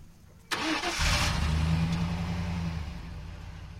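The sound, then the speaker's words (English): A pickup truck engine starts with a sharp burst, then settles into a steady, rumbling run that fades slightly toward the end. “We load a ladder and buckets into our pickup and drive to the trees.”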